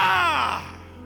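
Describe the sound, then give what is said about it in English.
A person lets out a low, voiced groan that slides downward in pitch and fades away over about a second. “The Bible says that that groan is like all earnest prayer.”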